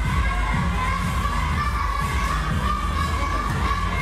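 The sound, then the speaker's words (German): Children shout during training in the large hall of a taekwondo club in Swisttal near Bonn, a constant dense din of many young voices with occasional soft thuds underneath. “Es hört sich ein bisschen an wie Kindergeburtstag im Fitnessstudio. Aber in der großen Halle des Taekwondo-Vereins Swisttal in der Nähe von Bonn trainiert die kommende Taekwondo-Elite Deutschlands.”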